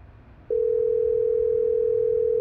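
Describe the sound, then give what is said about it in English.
Telephone dial tone on a phone call, one steady unbroken pitch that begins after a brief low hum and holds loud and even to the end. “Call Thomas.”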